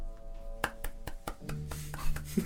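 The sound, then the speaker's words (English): A video game character claps, giving a few sharp, evenly spaced hand claps over a steady tonal background. “The clapping is so funny.”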